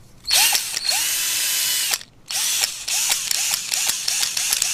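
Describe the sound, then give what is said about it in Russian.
A cordless screwdriver whirs loudly, first in one long run, then after a short break in a series of quick pulsing bursts. “О! Слушай, тут шуруповерты еще лежат.”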